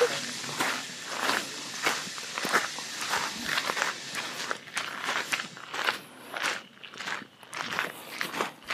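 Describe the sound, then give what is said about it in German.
Footsteps walk past an old church that is no longer used for worship. Many steady, crisp steps fall in an even walking rhythm, with slight crunching on each footfall. “Wir laufen jetzt an der, Predigerkirche vorbei.”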